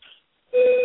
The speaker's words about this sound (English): Do you hear the school bells ringing in the background?